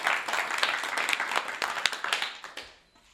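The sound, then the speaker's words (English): Studio audience applause at a TV studio taping in Portsmouth, New Hampshire: a brisk, crackling patter of many hands clapping that holds steady, then tapers off near the end. “Thanks to those watching and listening, and especially thanks to our studio audience. Give yourselves a hand.”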